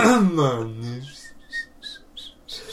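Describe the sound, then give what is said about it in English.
Someone whistles idly for no reason, a few short, high, wavering notes right after a brief spoken moment. “So I just start doing false coughs. Doing some whistling for no reason.”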